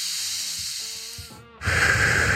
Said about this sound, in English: Now take a deep breath. No, seriously, let's do it together.